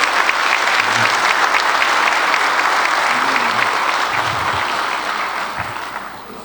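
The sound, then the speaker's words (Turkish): An audience at a public speech breaks into steady, dense clapping that holds evenly for several seconds before easing off slightly toward the end. “Ve onlar için sizlerden de bir alkış istiyorum değerli hazır.”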